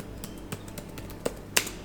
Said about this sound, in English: So I'm typing her name in now.